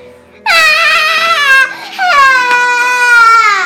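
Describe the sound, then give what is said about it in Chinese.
A child cries loudly in two long, high, tonal wails with a brief catch between them. The second wail sags slightly lower toward its end. “接着又大哭了起来。”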